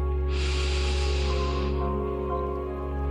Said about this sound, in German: nimm erstmal mit mir drei tiefe Atemzüge.